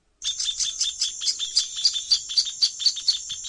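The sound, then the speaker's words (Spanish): A bird sings a melodious song from the top of a lapacho tree: a rapid, steady series of many high, thin chirping notes, fairly loud, with no voices. “voló hasta la cima de un lapacho que estaba muy cerca, donde lanzó su primer y melodioso canto.”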